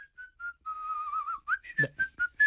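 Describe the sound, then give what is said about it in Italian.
Someone whistling a bright, cheerful little tune in high, pure notes: a few short chirps, then a long wavering held tone, then several more short clipped notes, fairly loud and alone. “di qualcuno che fischia”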